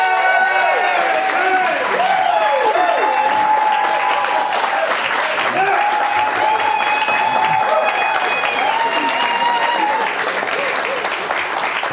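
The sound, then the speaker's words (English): Studio audience applause welcoming a guest on a live TV show, with sustained, even clapping throughout and cheers and whoops riding over it. “let's give a warm audience welcome uh, in studio tonight, Texas Senator Ted Cruz. Yeah!”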